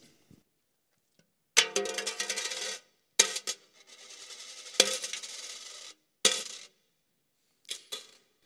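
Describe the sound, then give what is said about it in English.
Coins drop into a coffer in several bright, jingling bursts of clinking metal. Some bursts are longer and rattling, and others are short, with quiet gaps between them. “You would hear the sound of the coffer, and the sound of the coffer would sound something like this.”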